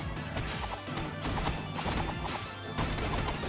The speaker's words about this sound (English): Oh, why is he throwing fireballs at me?